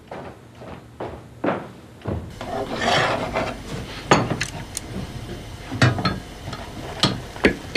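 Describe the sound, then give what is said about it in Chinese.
Scraping, creaking and rasping come from a screw twisted into a wine bottle's cork and then pulled out with pliers. Many irregular scrapes and sharp clicks follow one another, with rougher, denser grinding in the middle. “那家里有没有螺丝给拧拧？拿钳子一拔就出来了。”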